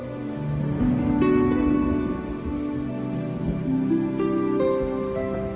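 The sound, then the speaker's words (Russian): Light drizzling rain patters in a steady, continuous, fairly quiet wash, without voices. “Дождик моросил по ее пестренькой лакированной спинке.”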